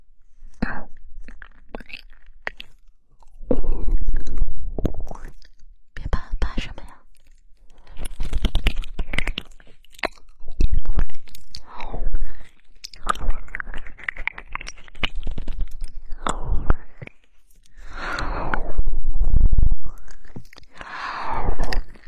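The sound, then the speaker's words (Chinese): Crunchy chewing as someone eats a crisp ear snack, loud irregular bursts of crunching and crinkling that come in clusters, mixed with whispered talk between bites. “那就先让我吃下耳朵，吃完了再下课，再去唱。”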